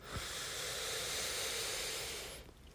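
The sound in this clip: A deep breath is drawn in slowly through the nose, a soft, airy hiss that holds steady for about two seconds and then trails off. It is faint and heard alone.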